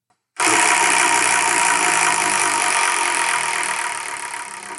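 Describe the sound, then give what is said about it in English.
Rapid rattling whir of a large two-foot prize wheel being spun, a dense, loud, steady clatter that starts abruptly and gradually thins out toward the end. “to do that spin, it hurts a little bit, because it's a big freaking wheel. It's about 2 feet.”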